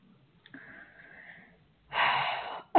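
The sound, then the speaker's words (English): A deep breath drawn before answering a big question: a faint, thin, wheezy stretch, then a loud, broad rushing breath lasting under a second, with speech starting right at the end. “I can tell by that breath that this is a really, really big question.”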